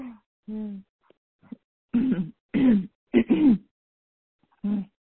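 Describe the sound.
Throat clearing, a few rough, voiced bursts in a row separated by short silences, with brief vocal sounds before and after.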